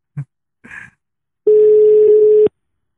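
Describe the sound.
Telephone ringback tone on an outgoing call that goes unanswered: one steady, mid-pitched tone lasting about a second, preceded by two brief short sounds.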